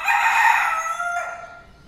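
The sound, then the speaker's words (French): A fighting rooster that is being prepared for cockfights gives a single loud crow. The call is held for about a second and then trails off into a fainter, lower tail. “Il a un nom ce coq ?”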